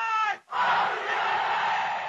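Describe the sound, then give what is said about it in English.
Archival recording of a vast crowd shouting slogans hailing Chairman Mao and the Communist Party as a new government is proclaimed. A brief spoken phrase gives way to a massed roar of voices that swells and holds steady to the end. “Thousands answered by shouting, "Long live Chairman Mao! Long live the Communist Party!"”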